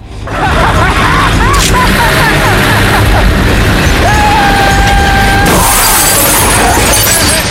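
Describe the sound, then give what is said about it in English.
A car crashing into another car as it is deliberately driven into it: a loud, sustained smash with shattering and crunching impacts that stays dense for the whole stretch. “Pryor drives into a car.”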